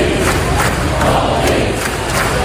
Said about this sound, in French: Vous entendez l'ambiance cette nuit sur le court à l'US Open. Assez incroyable, hein. Le public a crié donc le nom de mon fils alors qu'il jouait contre un Américain